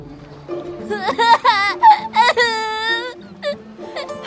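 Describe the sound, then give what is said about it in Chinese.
A small child wails and sobs after his sugar figurine has been bitten, with broken, quavering cries that rise and fall in several bursts, fairly loud against a quieter background. “生的人模人样的，竟然把小童的糖人咬掉一大块，这哪个孩子能不哭啊？”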